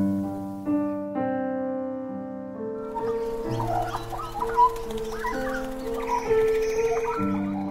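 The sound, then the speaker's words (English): Twittering chirps of a black finch, the Australian Bird of the Year, with a small southern population. Its quick, high calls come in after sustained musical tones and continue over them. “That's the sound of the Australian Bird of the Year, just declared by The Guardian and BirdLife Australia.”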